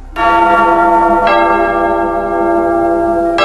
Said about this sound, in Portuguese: Toca o sino, sacristão.